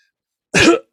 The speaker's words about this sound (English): Coughs.